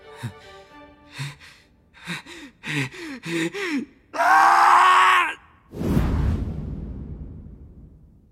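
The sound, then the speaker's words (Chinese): Gasping and groaning from a man waking suddenly, drenched in sweat: a few short voiced groans and gasps, then a long, loud, strained breath, then a breathy exhale that slowly fades. “他突然睁开眼睛，大口喘息，汗流浃背。”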